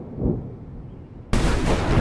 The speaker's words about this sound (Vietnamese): Đùng một tiếng, tia sét từ trên trời đánh xuống bất ngờ